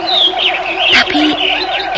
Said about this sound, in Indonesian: Burung-burung pun berkicau riang.